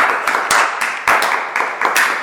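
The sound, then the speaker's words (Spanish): Audience applause rings out loudly, a handful of crisp, separate claps layered over a bright wash of clapping hands, with no talk. “Muy bien, un aplauso bien. Para él.”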